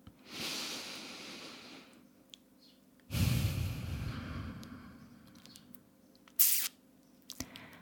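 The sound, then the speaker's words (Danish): Deep breaths during a guided breathing exercise, heard as two long, airy breaths in and out, the second louder and fuller, with a short sharp noise shortly after. “Så kan vi lige tage en dyb indånding. Og udånding selvfølgelig.”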